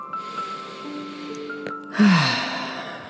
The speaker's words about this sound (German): Nimm einen tiefen Atemzug.